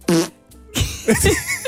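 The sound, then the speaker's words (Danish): A quick, brisk fart sound in short bursts: a brief blurt, a pause, then a longer, rougher burst with a buzzing, fluttering tone. “Prut nummer 2. Ej, jeg synes, at det, ja. Det er perfekt indslag, ja. Det er jo en lidt hurtigere, lidt frisk en.”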